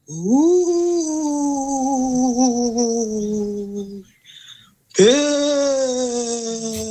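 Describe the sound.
A voice imitating a ghost lets out two long, wavering moans. The first swells up and then slowly sinks in pitch over about four seconds, and after a brief pause a second loud wail begins.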